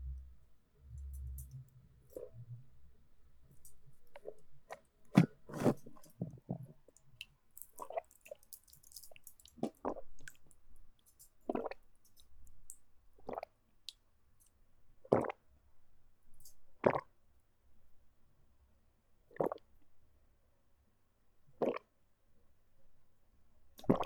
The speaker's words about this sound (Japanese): お水を飲みます。ぬるーい。一本飲むのか。きついな。